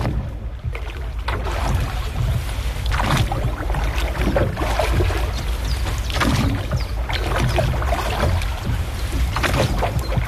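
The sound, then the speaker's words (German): Rowboat being rowed on a lake: water sloshes and splashes with a few recurring stroke-like surges over a steady wash of wind noise, with no voices. “Das tönt genau nach einem Ruderboot auf dem See, das ihr da gehört.”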